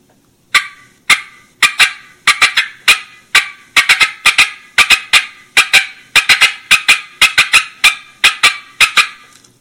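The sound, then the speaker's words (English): A turkey call imitates a hen's fast cutting: many sharp, loud, clipped clucks strung together in quick bursts of three or four, repeating steadily with no talk over them. “So I'm kind of tick-tocking, but I'm also putting three or four of them together, which kind of makes it sound like it's a little bit faster.”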